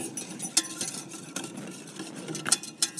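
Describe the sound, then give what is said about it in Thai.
A whisk stirs a liquid mixture of vitamin B3 dissolved in water, making quiet, irregular swishing with a few sharper metallic clinks against the bowl. “เราจะใช้ตะกร้อคนก่อนก็ได้นะคะเพื่อส่วนผสมมันเข้ากัน”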